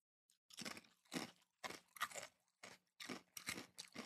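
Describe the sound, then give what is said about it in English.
Thin, crunchy crisps being eaten in many quick, faint bites, each a short crackling crunch in an uneven chewing rhythm, with no talk. “The crisps are, as they say across the pond, are very nice and like thin and a great amount of crispiness”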